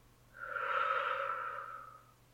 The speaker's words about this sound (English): We're going to take some deep breaths, okay? Breathe in and out.